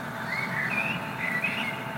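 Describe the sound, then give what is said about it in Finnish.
Common blackbird singing, faint fluted whistled phrases rising and falling over a steady background hiss. “Toi mustarastaan laulu, se on niin kaihoisaa.”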